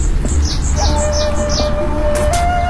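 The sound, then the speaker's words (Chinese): Small birds chirp in a garden with a pond and lotus plants, giving quick, high, bright calls that repeat in a loose rhythm throughout, heard alone without talk. “小鸟叫，真的”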